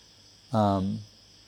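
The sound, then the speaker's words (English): A single low, buzzy frog croak lasts about half a second. It is rich in harmonics and dips slightly in pitch at its end, over a faint, steady high hum. “what is that? Huh? It's a frog?”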